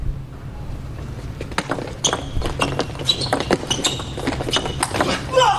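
A table tennis ball is served and then struck back and forth during a match, giving many sharp, crisp clicks in an irregular, quickening rally.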